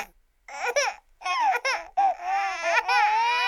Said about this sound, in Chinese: 哎，他们被吓哭了。哦，不要哭，没那么糟糕。